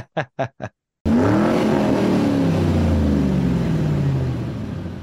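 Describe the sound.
A race car engine roars as it shifts into ninth gear, after three short sharp beeps. The loud, buzzing engine note drops in pitch at the shift, then holds as a steady drone that slowly fades.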